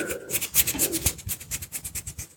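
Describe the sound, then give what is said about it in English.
Fingertips rub into the temples in a fast, even rhythm of many soft, scratchy strokes against skin and hair. The strokes come one after another with no talk over them. “rub into your temples.”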